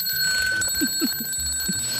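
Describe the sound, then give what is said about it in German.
Old mechanical alarm clocks of various kinds and ages ring together in a clock museum, a continuous bright metallic ringing with high sustained tones and a few short chirping accents on top. “Das sind alles also Wecker der verschiedensten Art, auch des verschiedensten Alters. Sie sehen ja, es sind besonders alte Wecker dabei mit dem typischen Klingeln.”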